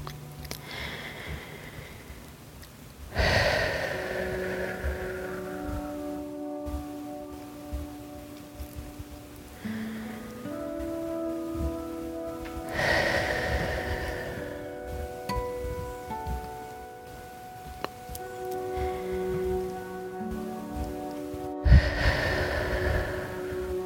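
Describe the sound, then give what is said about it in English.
Slow, deep breaths taken during a guided relaxation exercise: long airy rushes of breath, widely spaced, over soft, sustained tonal music. “Start by taking 2 to 3 deep, satisfying breaths.”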